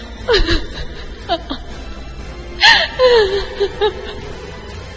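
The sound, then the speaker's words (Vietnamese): An old woman cries loudly in sobbing, wailing bursts. Her voice falls in pitch through each sob, with gasping breaths and short pauses between them. “Lão bà ôm mặt khóc thảm thiết. Trần Năng hỏi: thưa tiền bối, có lẽ tiểu bối ra tay nặng quá chăng? Lão bà càng khóc lớn.”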